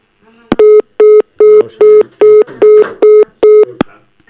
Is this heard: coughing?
no